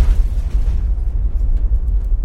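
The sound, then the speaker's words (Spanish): Explosion sound effect for everyone's heads bursting: a deep, rolling boom that holds as one sustained low rumble for about two seconds, loud and steady with no separate blasts and no voices. “Y vi cómo de repente explotaba la cabeza de todo el mundo.”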